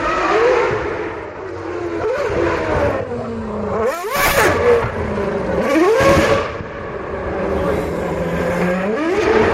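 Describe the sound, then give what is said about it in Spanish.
A Formula 1 race car engine on the streets of Madrid during an exhibition gives a loud, high-pitched scream whose pitch repeatedly climbs and drops as it accelerates and shifts gears, with sharp bursts of revving. “Así suena el motor de un Fórmula 1 por las calles de Madrid.”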